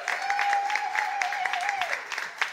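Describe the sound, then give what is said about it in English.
Audience applause and cheering welcoming a comedian to the stage: dense, steady clapping with a sustained whooping cheer that drops away near the end. “Make some noise for Ben McKenzie.”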